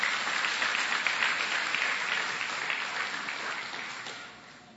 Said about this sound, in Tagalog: Palakpakan natin ng Panginoon.